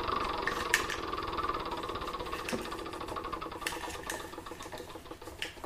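A spinning wheel in a money-and-payday video game clicks rapidly and evenly under a steady buzzing hum, with a few sharper ticks standing out, and runs the whole length at a moderate level.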